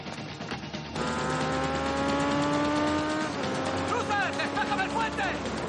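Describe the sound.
Cars revving and driving off with tires squealing in an action film scene: loud engine tones hold steady, then shift into wavering high squeals, continuous throughout.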